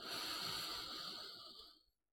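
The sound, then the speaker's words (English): A deep breath drawn in through the nose during a guided relaxation breathing exercise: one long, steady, airy hiss lasting almost two seconds, tapering away at the end, with no talk. “Deep inhale through your nose. Fill those lungs with air.”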